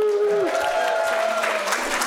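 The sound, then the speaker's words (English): Audience applause at a live show at a vegetarian festival, a steady wash of clapping that holds at an even level for about two seconds. “I'm so glad they clapped.”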